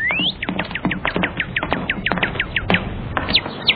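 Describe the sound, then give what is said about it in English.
High, quick rising chirps of a baby cardinal in a children's cartoon, many sharp peeps in a rapid irregular run over light tapping sounds. “Well, what do you know? A baby cardinal. He needs to tidy his nest.”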